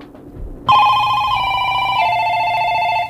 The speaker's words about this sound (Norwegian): En bekreftende ringelyd.